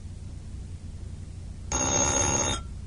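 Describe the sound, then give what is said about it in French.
A telephone bell rings in one loud, shrill, continuous burst lasting under a second, starting abruptly after quiet and cutting off just as suddenly, with no voices. “Et voilà le téléphone.”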